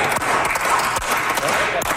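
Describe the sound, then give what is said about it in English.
Tired, steady applause from members in the Manitoba legislature chamber after an all-night budget bill debate: a dense patter of clapping that holds a fairly even level throughout, with a few sharper individual claps standing out. “Tired applause in the Manitoba legislature.”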